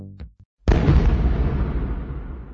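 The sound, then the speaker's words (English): A stun grenade (flashbang) goes off in one sudden, sharp blast that trails into a long rumbling decay. A brief tonal sound and a moment of silence come before it. “A stun grenade, also called a flashbang, suddenly overloads our senses. We cannot react.”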